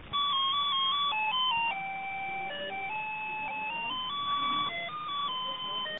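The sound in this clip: Recorded hold music plays on a press office telephone line: a simple electronic melody of held notes that step up and down, thin and band-limited, fairly faint over low line noise.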